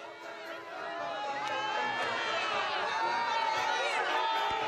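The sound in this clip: Crowd of pilgrims on St. Peter's Square in Rome greeting the Pope as he rides through in the popemobile, a faint, steady swell of babble and cheering that grows slightly fuller.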